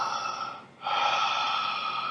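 Loud, noisy breathing: one sustained breath, a brief dip, then a second long, steady breath that carries to the end, with no talking.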